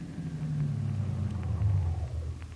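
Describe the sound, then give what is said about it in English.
A taxi cab pulls up on a street corner, its engine giving a steady, low rumble that stays fairly loud throughout with no voices. “No, we leave cab at this street. Driver, you stop on corner.”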